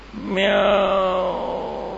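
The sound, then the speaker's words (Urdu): A voice imitates a cat's feeble, weak cry: one drawn-out mew lasting about two seconds that sags slightly in pitch and slowly fades. “بھائی corona میں ہمت تھوڑی تھی اس کو بولنے کی، کچھ چیخ مارنے کی، صرف اتنا کیا مریل آواز میں”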